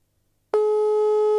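Telephone busy tone heard while placing a call, a single steady mid-pitched beep that starts abruptly after a short silence and holds at an even level to the end, with no talk over it.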